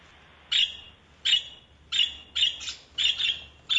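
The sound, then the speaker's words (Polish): A budgerigar chirps in a quick series of sharp, high-pitched calls, many short bursts in an uneven rhythm over a quiet background. “A ja ci podpowiem, że takie dźwięki wydają papuszki faliste.”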